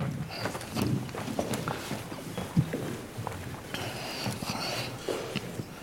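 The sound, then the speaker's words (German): Footsteps of a person walking to the back of a hall during a Q&A session to hand out microphones, an irregular run of soft thuds and scuffs at moderate loudness. “Ich gehe dann rum und verteile die Mikrofone. Ja, es ist natürlich ganz hinten, da muss ich ein bisschen laufen.”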